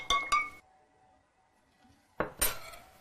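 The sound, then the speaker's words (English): Spoon clinking against a glass as a drink is stirred: two quick pairs of bright, sharp clinks, one at the start and one near the end, separated by a quiet pause with no voices. “Stir it in.”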